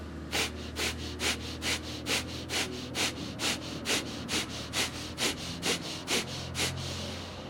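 Fast breathing through the nose during a breathing exercise: many quick, evenly spaced sniffing pulses in a steady rhythm, faint, with no talk.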